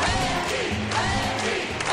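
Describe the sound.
A crowd cheers in the hallway outside the Texas State Senate after Wendy Davis's filibuster defeated an anti-abortion bill. The roar of many voices is loud, dense and continuous, with shouting layered throughout.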